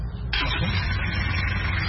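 A car engine restarting at a market. A steady low rumble jumps to a louder, fuller roar about a third of the way in and then holds steady to the end.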